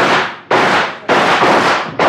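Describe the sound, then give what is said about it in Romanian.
A volley of gunfire in a staged battle scene, three or four loud, sharp blasts about half a second apart, each with a rumbling, crackling tail, heard alone without talk. “Atențiune, ochiți, prieteni. Atențiune, foc!”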